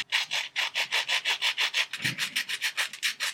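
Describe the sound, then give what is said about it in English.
Oreo cookies rubbed together right up against a microphone, making many steady, rhythmic scratchy strokes, evenly paced and fairly loud, with no voices. “Would you like to rub Oreos or do you want me to rub Oreos or should we rub each other's Oreos? I thought we were rubbing each other's Oreos. Okay, let's put it near a mic.”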